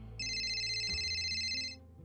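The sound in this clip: Phone ringtone: a bright electronic pattern of sustained high tones that plays for about a second and a half, then stops, with no talking over it.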